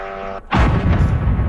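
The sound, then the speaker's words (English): A drone strikes an apartment building in Kyiv with a sudden, loud blast that cuts in after a brief quiet dip, then gives way to a sustained, heavy roaring rumble and hiss. “That is one drone hitting an apartment building in Kyiv.”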